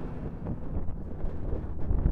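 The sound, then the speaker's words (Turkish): Wind blowing outdoors while someone walks, buffeting the microphone with a steady, low, rumbling roar that lasts throughout, with no talk. “Biraz da rüzgar esiyor sanki.”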